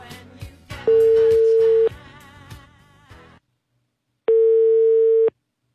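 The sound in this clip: A telephone call connects with two long, steady ringback tones, the first sounding over music and the second alone after a short silence.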